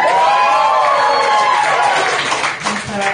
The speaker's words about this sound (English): Alright, make some noise if you want her to shut up.